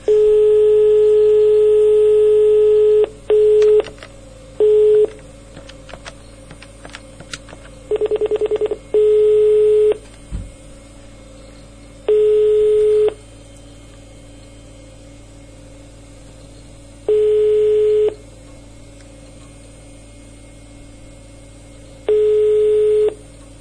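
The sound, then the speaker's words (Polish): Telephone keypad dialing while placing a call: a few quick tone bursts, then four long, evenly spaced ringing tones over a steady low hum, with no voices. “zadzwoniły jeszcze raz do Zyzia”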